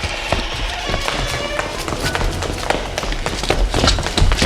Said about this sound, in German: TKKG rannten los.